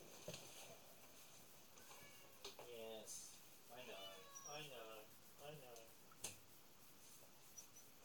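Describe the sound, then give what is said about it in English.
A cat meows at a door, desperate to be let out, giving several faint, plaintive meows spaced across a quiet background. “I'm just going to let my cat out because he's going crazy at the door.”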